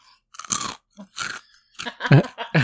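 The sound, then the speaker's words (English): Crunchy chewing of a Filipino corn nut snack: several loud, irregular crunches and chomps separated by brief silences, growing heavier toward the end. “So it's a Filipino, like, little, popcorn thing. A little ASMR eating sound.”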